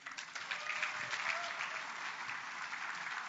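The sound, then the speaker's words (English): An audience applauds to welcome a guest speaker with steady, dense clapping at a moderate level throughout. “So would you put your hands together? Would you welcome Jack Shiflett?”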